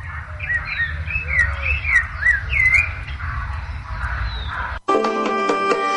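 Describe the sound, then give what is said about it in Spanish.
Thrush singing: a run of clear, varied whistled phrases and chirps over a low steady hum, cut off abruptly near the end as music begins. “Ahí está el Sorsalito cantando.”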